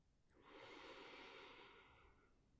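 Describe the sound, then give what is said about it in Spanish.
A single long, soft breath during a guided deep-breathing walking exercise: airy, steady and faint, swelling briefly and then tapering away, heard alone with no talk. “Inhala. Exhala todo el aire fuera.”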